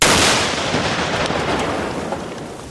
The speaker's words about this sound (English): The troops strap dynamite to the rig and then blow it up.